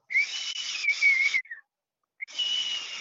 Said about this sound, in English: And I'd sit out the back of the ute and I'd whistle.